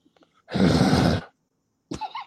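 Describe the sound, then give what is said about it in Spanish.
A harsh, guttural throat-clearing noise made by a person demonstrating the sound: one long raspy burst lasting under a second, then a brief voiced grunt after a short pause. “¿O fui yo que me traté de limpiar la garganta? Nuevamente.”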